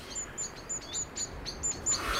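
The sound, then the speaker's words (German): Two blackbirds quarrel outside an open window, giving a rapid series of short, sharp, high chirps in an uneven rhythm over a faint steady background. “Das Fenster ihres Zimmers steht offen. Draußen streiten zwei Amseln.”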